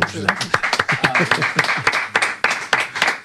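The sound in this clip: Applause in a radio studio: many sharp, uneven claps in quick succession, mixed with people talking throughout.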